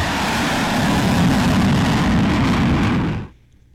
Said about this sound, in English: it looks to be like a fighter jet that's got his afterburners on